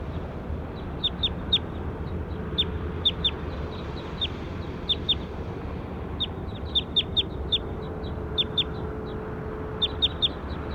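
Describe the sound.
Bird calling: many short, high-pitched chirps come in quick clusters over a steady low background hum, with gaps of a second or so between bursts.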